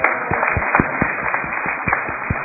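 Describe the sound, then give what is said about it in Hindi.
An audience claps when invited to, a muffled patter of separate claps at an uneven rhythm that continues briefly over a soft background. “अब ताली बजा सकते हो।”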